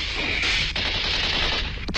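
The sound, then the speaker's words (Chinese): Gunfire exchanged in the dark between partisans and German soldiers: a loud, unbroken machine-gun rattle of rapid shots with a couple of sharper cracks standing out, continuing through the whole stretch. “黑暗中双方互相射击”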